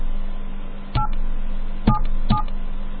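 Touch-tone dialing of a telephone number: three short two-tone keypad beeps, the last two closer together, over a faint steady hum.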